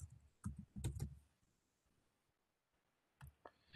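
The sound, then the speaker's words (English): Faint typing on a computer keyboard, with a short cluster of keystrokes early on, a quiet pause, then another brief burst of clicks near the end. “The next term, affinity, I'm going to go ahead and type that in.”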